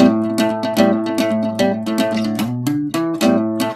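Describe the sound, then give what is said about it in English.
Harmony Broadway acoustic guitar played alone, with a woody, warm yet bright tone: many plucked notes and chords ring out in a steady rhythm, moving through shifting pitches without pause. “That sound is the sound I had on the four-track original because I owned this same guitar in Boston in the early 90s.”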